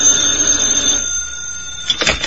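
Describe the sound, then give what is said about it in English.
A telephone rings in a room. A steady, high electronic ring holds for about a second and then fades, and a short burst of ringing returns near the end, with no voices. “when my phone rings.”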